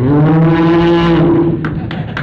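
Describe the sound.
A voice imitates a cow's moo, standing in for a cow called Kaliya in a story of Krishna among cowherds: one long, low, droning call held for about a second and a half, then a few faint clicks.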